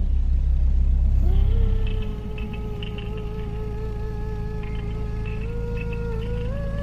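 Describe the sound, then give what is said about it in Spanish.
A car engine approaches a house in a Spanish horror story. A heavy low rumble opens and then eases into a steady engine drone with a whining tone that climbs slightly near the end. “Un coche se acercaba a la casa. Podía oírlo y esperaba que fuera el de la policía.”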